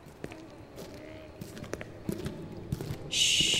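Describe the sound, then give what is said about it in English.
Soft, light footsteps of people tiptoeing quietly, a few scattered muffled taps at an uneven pace, faint against a low background hiss, with a brighter hissing noise entering near the end. “Just follow me, and we'll tiptoe quietly until we can determine what's inside.”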